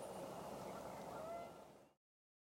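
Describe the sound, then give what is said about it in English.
Canada goose calling with loud, nasal honks with a clear tonal ring that carry over faint background noise, then stop abruptly. “Canada goose.”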